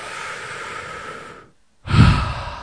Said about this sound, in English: You can do that by taking two slow breaths, and do that now so you can remember.